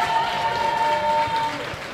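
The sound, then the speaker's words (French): An audience applauds at an evening event, giving dense, steady clapping with a faint sustained tone above it. The clapping eases slightly toward the end. “Vous pouvez vous applaudir.”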